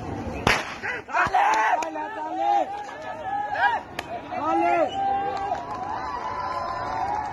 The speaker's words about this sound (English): That is the sound of a 100-metre race, but what you can't tell just from listening to that is that there's only one person in the race. Cheering is not going to affect the outcome.